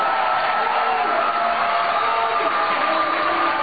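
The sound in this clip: An audience boos at the Southern Republican Leadership Conference: a steady, loud wash of massed crowd voices that holds without a break throughout.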